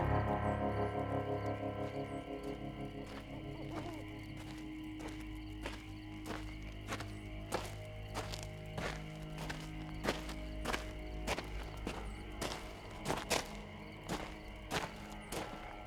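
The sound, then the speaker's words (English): Footsteps of a group of about eleven soldiers walking down a cold, dark desert road, a steady stream of soft thudding steps over a low, rumbling background. “As General Gonzalo walked down the cold, dark desert road with 10 other soldiers, he tried not to seem too eager.”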